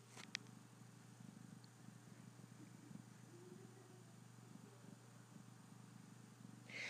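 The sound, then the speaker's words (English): A cat purrs continuously in a low, rumbling drone that sounds like a racing engine. The rapid fluttering pulse stays steady for the whole stretch, and no voices are heard. “This is the sound of a cat purring like a race car.”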